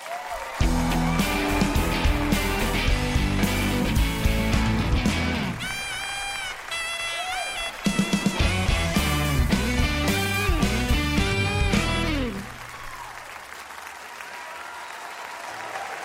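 A theater audience greets a guest actor with loud, sustained applause and some cheering, a dense clapping roar lasting about twelve seconds before dropping away.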